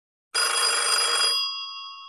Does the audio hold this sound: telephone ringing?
yes